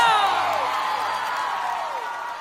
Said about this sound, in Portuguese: salva de palmas para vocês